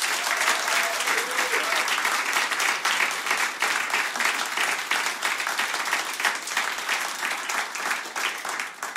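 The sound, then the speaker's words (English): Dense, sustained audience applause welcoming a business guest at his hotel, a steady wash of many hands clapping at even loudness for the whole stretch, tapering slightly at the end. “Ladies and gentlemen, please put your hands together for today's business shaper, the one, the only, Sir Rocco Forte.”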